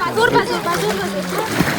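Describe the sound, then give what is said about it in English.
Water splashes and sloshes as rubber boats packed with families are pushed off into a river on the Turkey–Greece border. A steady, continuous churning runs under a voice talking throughout. “Rubber boats packed with families, young babies and children being cast off into the river.”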